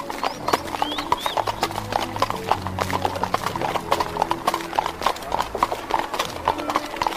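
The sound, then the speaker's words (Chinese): Hooves clip-clop in a quick, even, continuous rhythm as eight white horses trot, pulling a fancy gold carriage set with jewels. “松树国的国王派了一辆由八匹马所拉的漂亮马车来接王子和小公主。”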